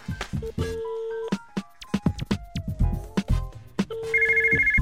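A telephone rings with a bright, rapidly pulsing electronic trill in the last second, after a run of short plucked musical tones.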